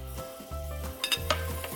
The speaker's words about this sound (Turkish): Ocağın altını tekrar yaktım hemen. Çünkü tereyağı koyacağız. Karidesleri pişirmeye başlayacağız. Bol tereyağı koydum.